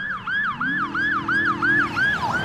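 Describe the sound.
A police siren yelps in rapid, repeating rise-and-fall sweeps, loud and steady with no voices, at a scene where many police and SWAT vehicles surround an apartment building.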